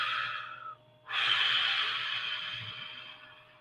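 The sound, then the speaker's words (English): Deep breathing during a guided meditation: a breath that cuts off, then after a brief pause a longer, stronger airy breath that fades gradually, over a faint steady hum. “Take a deep breath. Ooh, yeah. Breathe that through.”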